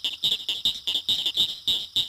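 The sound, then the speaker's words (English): Frog chorus from the shallows, with pig frogs, southern leopard frogs and small, noisy cricket frogs named: a steady run of many rapid, high-pitched pulsed calls repeating at an even rhythm over faint low background noise. “These include pig frogs, southern leopard frogs, and the small but noisy cricket frogs.”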